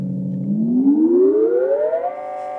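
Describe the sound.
Moog synthesizer tone stacking layered sounds about a whole tone apart, gliding smoothly upward in pitch over a couple of seconds, then holding steady at the higher note.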